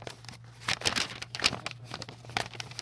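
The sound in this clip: Paper crinkles and tears as a special delivery letter is opened: several short, crisp rustling bursts over a low, steady hum.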